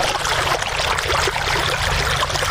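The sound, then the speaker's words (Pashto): Water pumped up from a deep farm well by solar-powered machines in Sayed Abad district, Maidan Wardak province, flows in a steady, even rush over a constant low hum. “دا د میدان وردک ولایت په سید آباد ولسوالۍ کې د جوړو څاګانو اوبو دي چې بزګران یې د لمریزې هندارو او ماشینونو په مرسته راپورته کوي.”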